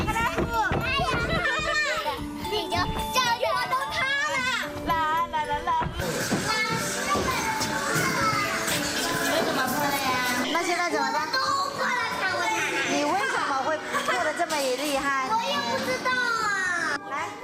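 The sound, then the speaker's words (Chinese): Children laughing, shrieking and chattering as they play with lanterns in hand, a dense, lively jumble of high young voices that runs loud and unbroken for the whole stretch. “嬉笑玩闹间，孩子们无暇顾及自己手里的灯笼。”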